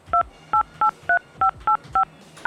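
Telephone keypad DTMF tones from dialing a conference call number: seven short, evenly spaced two-tone beeps and the start of an eighth, clear and mid-pitched, each key sounding for a fraction of a second.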